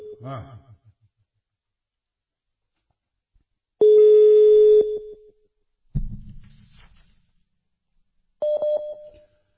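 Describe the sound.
Electronic telephone call tones while someone is being phoned: a brief voice at the start, then a long steady tone, a lower buzzy burst and a shorter tone, separated by silence.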